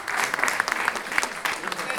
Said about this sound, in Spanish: Venga, aplausos a la placa, chicos.